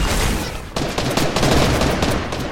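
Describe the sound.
Gunfire in a video game rattles in dense, rapid volleys, a loud continuous barrage that breaks off briefly and then resumes just as heavily.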